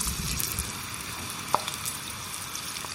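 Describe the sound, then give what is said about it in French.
Steady sizzling hiss of leeks frying in oil heated to about 120 degrees, a continuous bright crackle with one sharper click midway and no talking. “là on va mettre les, poireaux dans, dans, l'huile.”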